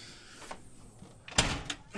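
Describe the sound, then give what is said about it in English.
A house door that almost falls off rattles and bangs in a few loud, sharp bursts near the end, following a quieter stretch of low rustling. “I'm going to go back inside now. After the door almost falls off.”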